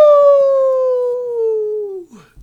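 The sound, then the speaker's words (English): A wolf gives one long howl: a clear, loud tone that slides slowly downward over about two seconds, with a fainter overtone above it, before breaking off. “That's a wolf. It's the sound of the outback”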